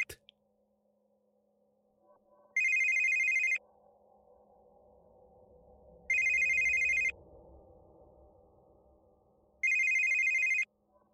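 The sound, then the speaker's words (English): A phone rings in three evenly spaced electronic bursts, each a high, warbling trill about a second long, over a low steady background hum. “picked his phone on the fifth ring”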